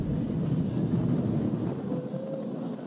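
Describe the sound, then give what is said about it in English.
Loud, continuous roar of a Falcon 9 rocket carrying a crewed Dragon capsule during launch and ascent, a dense low rumble holding steady throughout with no voices. “Flying crew on board Dragon and Falcon 9, and look at them go!”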